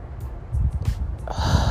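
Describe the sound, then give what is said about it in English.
A deep inhale drawn through the nose during a breathing exercise, a single airy, rushing breath that swells after a brief quiet start and carries on steadily to the end. “we're going to end with a deep inhale. Inhale through your nose. Hold it.”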